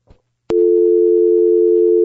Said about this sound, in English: Could you send that dial tone down the line?